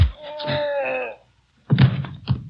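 A punch lands in a fight. A drawn-out, wavering groan is followed after a pause by a couple of dull, heavy thumps.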